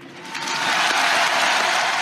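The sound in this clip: Dense crowd applause honours a funeral procession in a Paris street. It swells in the first moments, then stays loud and steady throughout, with no voices heard over it.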